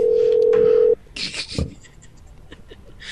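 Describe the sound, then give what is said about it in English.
A telephone tone heard while placing a call to order pizza: a steady single-pitched tone holds for about a second, then cuts off into brief scattered clicks and short noise bursts. “Beep, bop, beep, bop, boom, boop, bop. They just called Domino's.”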